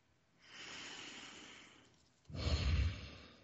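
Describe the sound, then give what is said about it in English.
Deep, calming breaths: a slow, soft airy inhale is followed by a brief pause and a louder, rougher exhale, heard alone without speech. “Close your eyes. Take some deep, calming breaths.”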